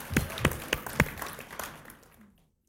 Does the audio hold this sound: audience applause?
yes